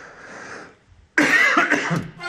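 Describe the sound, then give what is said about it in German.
One short, loud, harsh cough bursts out abruptly after a quieter stretch of low sound, then trails off raggedly over about a second. “Dann kann ich mal eben kurz husten.”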